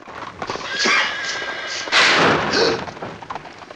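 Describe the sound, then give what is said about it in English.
A speeding carriage crashes through a wooden frontier barrier and snaps it in two. A loud, harsh burst of splintering noise hits about halfway through, after a rougher rumbling build-up, then fades. “Hearing a noise, the official leaves his office in his dressing gown to find that Dracula's driven through the barrier, snapping it in two.”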